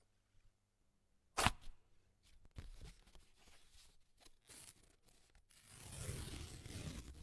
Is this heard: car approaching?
no